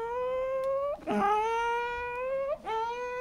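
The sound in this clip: A voice imitates an AC electric train motor changing speed, a sustained humming whine that climbs steadily in pitch, breaks off briefly twice and resets before climbing again.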